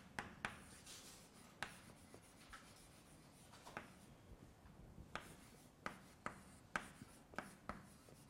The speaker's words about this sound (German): Okay, dann schreiben wir das nochmal kurz auf.